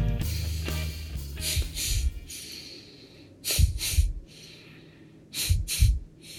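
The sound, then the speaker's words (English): Slow, rhythmic human breathing: a few airy, breathy inhales and exhales of moderate loudness follow a steady pattern over a faint low hum, with no talking. “Do you hear that? That's the sound of me breathing. Breathing to a certain rhythm.”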